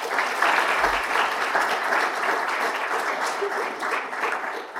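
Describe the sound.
Applause from an audience welcoming a speaker to a lecture on English law and the English courts after Brexit. The clapping is dense and steady for the full five seconds, with no voices standing out.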